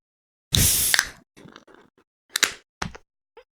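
A drink is opened with a loud hissing burst, followed by quieter rustling and a few brief clicks and taps.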